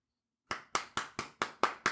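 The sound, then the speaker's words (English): After a brief silence, a quick run of seven crisp hand claps rings out in an even, brisk rhythm as applause for a comment, each clap sharp and decaying quickly. “a clap for that comment.”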